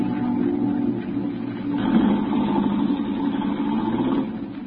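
A taxi engine idles on the way to the Embarcadero, a steady low hum with a faint mid-range drone that holds evenly throughout, with no talking.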